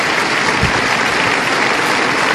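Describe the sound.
A church audience applauding at a religious gathering: a continuous wash of many hands clapping, steady and fairly loud throughout without a clear start or finish.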